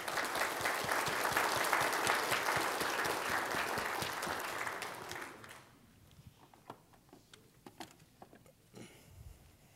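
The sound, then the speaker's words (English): Audience applause fills a church service after children's kindergarten graduation recognitions: dense, loud clapping for about five seconds, then it thins quickly into scattered, faint claps and small noises. “Let's give them all a big hand.”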